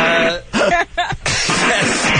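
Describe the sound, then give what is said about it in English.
Someone clears their throat in a long, harsh, raspy burst broken by two brief pauses. It is loud and stands alone without speech. “I was just clearing my throat.”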